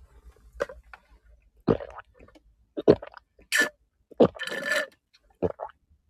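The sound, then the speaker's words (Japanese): Chewing while eating an anpan, a sweet bean bun: a few soft, irregular mouth and chewing bursts separated by brief quiet gaps. “お食事中にね、喋ってしまって申し訳ございません。”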